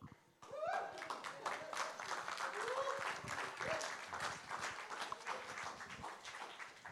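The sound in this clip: Audience applause welcomes a speaker at a church talk, a dense wall of clapping that starts abruptly and carries on for several seconds, with voices calling out over it before it eases slightly at the end.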